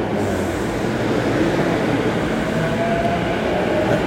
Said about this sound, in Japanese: 上り線ね、えー、中央特快が通過しております、えー、なかなかいい音ですね